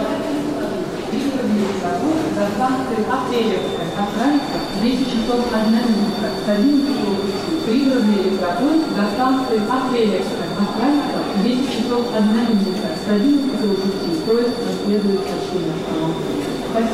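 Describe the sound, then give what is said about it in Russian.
Railway station ambience at a terminal served by commuter trains and airport express trains to Vnukovo: a steady rumble of rolling stock with a thin, high, sustained whine. Voices carry on throughout. “Аэроэкспрессы в аэропорт Внуково. Это, да, это Киевский вокзал. Электрички до Апрелевки, да, это Киевский вокзал.”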